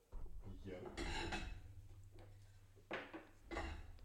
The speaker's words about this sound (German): greif doch einmal bitte da, genau, in den Schrank. Und gib mir mal 2 tiefe Teller von ganz oben.